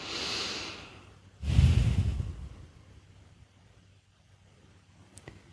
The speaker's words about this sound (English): So let's just pause here and let's just take a breath into the body.